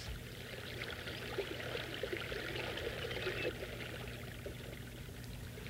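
Water is poured steadily for washing clothes by hand at home, a soft, even rush and trickle that keeps going at a constant low level with no breaks.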